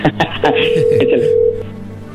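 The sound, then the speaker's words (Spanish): A telephone rings on an outgoing call, heard as a steady mid-pitched tone lasting about a second while people talk over it. “A ver, ahí se está marcando, contéstale.”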